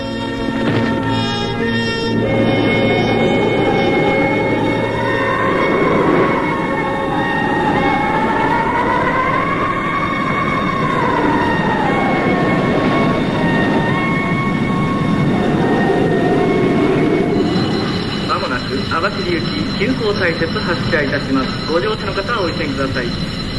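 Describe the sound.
A train runs with a loud, continuous rumbling roar that fills the whole clip, while wavering tonal sounds rise and fall above it.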